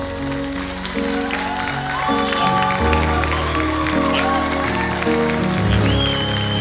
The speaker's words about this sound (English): And I want you to put your hands together and welcome them today as they come.